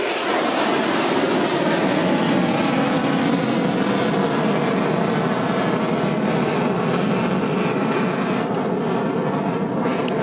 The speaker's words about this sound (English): See the afterburner as he maneuvers there.